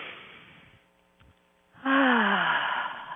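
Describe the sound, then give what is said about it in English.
A deep, relaxing breath drawn in as airy noise during a guided relaxation session, followed after a quiet pause by a loud voiced 'ah' release whose pitch falls. “So, if you're ready, let's take a deep, relaxing breath.”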